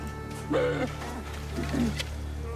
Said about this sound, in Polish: Znowu niedźwiedzie? A nie, to jakieś maluchy.